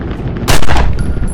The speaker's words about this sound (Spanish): Martín lo apunta con la pistola. ¿Pero qué hostias anda? Le dispara.